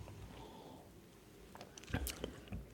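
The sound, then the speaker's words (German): Someone takes a sip of a drink with roasted, coffee-like notes, heard as a few faint wet mouth and swallowing sounds near the end against quiet background hiss. “Oh, ich nehme mal einen Schluck.”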